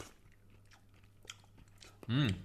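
Someone chews fresh, crunchy peas cooked in a vegetable broth dish, making faint, irregular crunching clicks, then gives a short, louder voiced exclamation.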